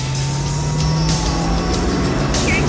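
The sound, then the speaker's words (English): A battered delivery beer truck drives along, its engine giving a loud, steady rumble with a constant low hum throughout, no voices heard. “The battered delivery truck drives up behind the running officers.”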